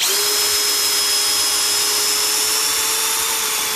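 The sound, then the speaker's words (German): A cordless screwdriver whines loudly and steadily while backing out screws that hold wooden parts, as old panelling is taken off a carnival structure. The motor pitch stays constant throughout, with no voices. “der mit dem Akkuschrauber dran geht, die Schrauben zu lösen, die die Holzteile noch halten, die er abzumontieren hat.”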